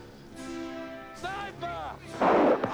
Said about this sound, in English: Jennifer Grey shooting that machine gun. AK-47s.